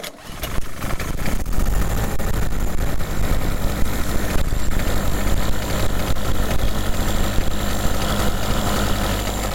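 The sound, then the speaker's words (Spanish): Loud, strongly vibrating engine running. It starts abruptly and holds a dense, rough, continuous rumble with a shaking rattle throughout, unchanged in level for the whole stretch, with no voices. “vibra mucho, eso sí. Vibra mucho el motor.”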